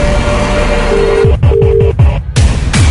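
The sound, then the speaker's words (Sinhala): A telephone is dialed: a few short beeps sound over a run of repeated low, clicky pulses that keep a regular rhythm. “Phone එක තිබ්බ ගමන්ම විහඟ හිමන්සට ගත්තා”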